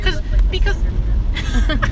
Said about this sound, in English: it's just, like, this road that we're driving down right now.